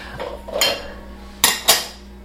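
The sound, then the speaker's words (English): Dishes and cutlery clatter as a dishwasher is unloaded in a kitchen. A soft rattle of handled crockery is followed by two sharp clinks in quick succession. “I need to unload the dishwasher and then load the dishwasher and then do some dishes.”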